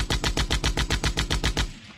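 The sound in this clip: A burst of gunfire from the nose turret of a rusted, wrecked tank with a single surviving gun. About a dozen sharp, evenly spaced shots come in quick rhythm, then stop abruptly. There is no talk.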